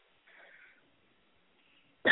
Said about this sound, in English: take deep breaths and cough those things out.